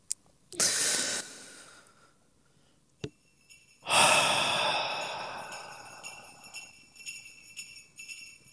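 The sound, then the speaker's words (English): A big, deep breath: a noisy intake of air followed after a pause by a longer, louder exhale that slowly fades, with faint sustained high tones lingering afterward. “let's go ahead and start our read along with a big, deep breath.”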